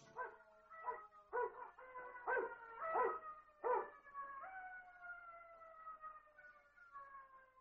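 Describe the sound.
A dog gives a few short, tonal yelping barks, then breaks into one long, drawn-out howl that holds a steady pitch before fading. The calls are faint and come alone.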